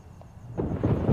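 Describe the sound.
Rain falls in Los Angeles as a soft, low rumbling wash that swells partway through and stays fairly quiet, with no voices.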